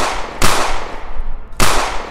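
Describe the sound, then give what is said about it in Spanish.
Gunshots fired during a tabletop horror role-playing game. Loud, sharp cracks with brief noisy tails stand alone, with no voices. “Se tambalea, le disparo. Ahora que estoy cerca. Dale. Le disparo tres veces.”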